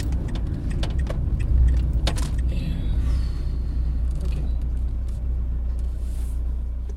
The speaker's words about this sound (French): Attends, je vais me garer là.